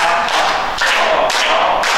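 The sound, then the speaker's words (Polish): A group claps hands together during a laughter exercise session. The sharp, loud claps land in a steady, regular beat, with no voices over them. “Będziemy klaskać, pobudzamy wtedy punkty akupresury, ruszamy się, żeby nie stać w miejscu”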